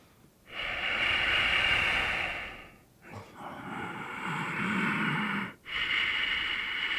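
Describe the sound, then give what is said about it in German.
Deep breathing in and out as a relaxation exercise, one long airy inhale followed by a slower exhale, then another inhale begins; the breaths are soft and hissing, with no talk. “Du kannst zum Beispiel jetzt erst 2 oder 3 Mal tief ein- und ausatmen.”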